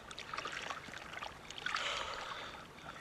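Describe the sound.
Water sloshes and trickles around a boat riding up and down on waves, a steady watery wash with small splashes that swells briefly partway through.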